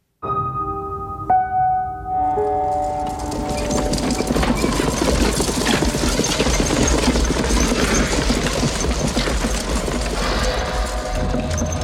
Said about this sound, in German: Da kommt der Wagen.